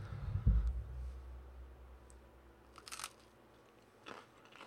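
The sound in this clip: Biting into homemade white loaf bread: one crunchy bite near the start, then quieter, scattered chewing crunches. The sounds are faint overall and no one talks.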